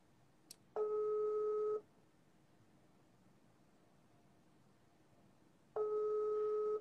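A telephone ringing tone on an outgoing call that goes unanswered. Two faint, long, steady tones, each lasting about a second, are separated by a long quiet gap, with a tiny click just before the first.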